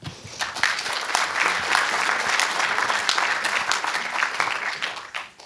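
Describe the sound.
An audience at a live talk on an essay about indignation applauds to welcome the guest speaker. The clapping is dense and steady throughout and tapers off in the last moment.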